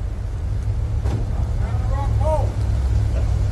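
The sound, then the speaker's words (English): A car drives into a motorcade with a steady low engine and road rumble throughout, while indistinct voices call out over it. “that was the sound of the car going into the motorcade”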